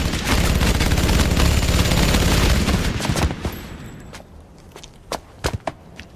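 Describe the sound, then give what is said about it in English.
Gunfire rips out in a dense, continuous hail of bullets for about three seconds, then thins and fades, followed by a few separate sharp cracks near the end. “They slaughter the terrorists in a hail of bullets.”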